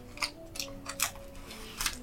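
Trading card pack wrappers crinkle as they are torn open, a few sharp, crackly bursts at uneven intervals over a faint steady hum.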